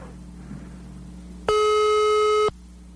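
A landline telephone's busy tone sounds as a single steady, loud beep lasting about a second, set against a low, quiet hum.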